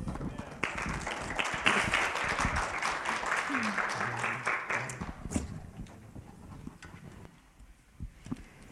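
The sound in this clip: An audience applauds to welcome a pastor arriving to teach the opening of a series on prayer: dense, lively clapping for about five seconds that then thins out and dies away.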